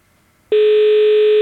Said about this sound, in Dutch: Kijken of dan de lijn wel stabiel blijft. In gesprek.